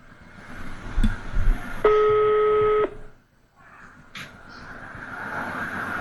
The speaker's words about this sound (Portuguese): Tá chamando.